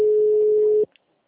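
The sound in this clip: A telephone dial tone as a call is placed: one steady mid-pitched tone holds for under a second, then cuts off abruptly, followed by a faint brief click.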